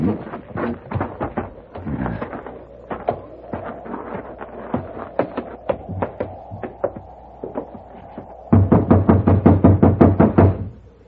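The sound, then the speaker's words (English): Knocking on a locked door: many sharp raps come in irregular bursts, then a faster and louder run of knocks near the end. “See if it's open. No, it's locked. You just have to keep knocking till he wakes up.”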